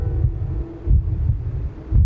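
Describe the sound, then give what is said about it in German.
A pounding heartbeat: a few low, muffled thumps over a soft, steady hum, with no voices. “Nichts. Außer dem staccatoartigen Trommeln meines eigenen Herzschlages, das ich in meinen Ohren festgesetzt hatte.”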